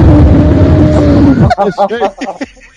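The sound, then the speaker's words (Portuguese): A voice imitates a dragon's spitting fire-breath with a rough, roaring, breathy rush that lasts about a second and a half and then cuts off abruptly. Speech follows right after. “O cara fazia uma respiração e tal, né? Aí esse bicho, mano, fazia essa respiração cuspindo, mano. Fazia assim, ó.”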